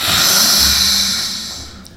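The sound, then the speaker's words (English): A forceful yoga lion's breath exhale through an open mouth with the tongue stuck out, a rough, rasping rush of air that holds steady, then trails off near the end. “We're going to add lion's breath to that to become even more fierce now.”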